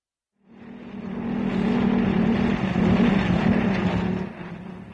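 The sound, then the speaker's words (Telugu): Car arriving, staged as a sound effect in a radio play: a low engine rumble swells in after about half a second and then holds steady and full for the rest, with no voices. “అమ్మా అమ్మా, నాన్నగారు వచ్చారే, కారులో వచ్చారు.”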